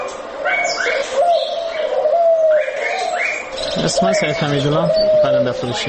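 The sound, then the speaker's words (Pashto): Turtle doves cooing from square cages at a bird market street in Kabul, their soft repeated calls mixed with other birds and sitting under continuous talking. “د کابل د کافروشي په کوڅه کې د نورو مرغانو تر څنګ په آرتو آرتو څلور کونجه قفسونو کې د قمریګانو نارې هم تر غوږ کېږي.”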